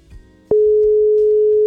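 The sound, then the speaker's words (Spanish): A telephone ringing tone sounds while a call is being placed: after a low murmur, one long, steady, mid-pitched ring holds evenly for a bit over a second, then stops abruptly. “Estamos llamando.”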